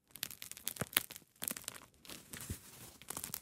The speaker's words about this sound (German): Dann mache ich jetzt mal den Krustentest.